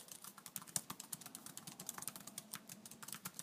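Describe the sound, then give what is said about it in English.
Typing on a computer keyboard: a quick, steady patter of many light clicking keystrokes, faint and with no talk. “You like my little click, click, click, click? I learned how to type long ago.”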